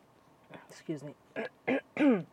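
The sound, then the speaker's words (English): A person clears their throat and coughs in a series of short, rough, voiced bursts, each one louder than the last. “excuse me, something got stuck in my throat there.”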